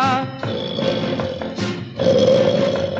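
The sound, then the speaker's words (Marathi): A lion roars in a cave: a few deep, rough roaring bursts, loud and sustained, with gravelly grunting textures and no voices. “महाभयंकर सिंह एकदा गुहेमध्ये निजलेला.”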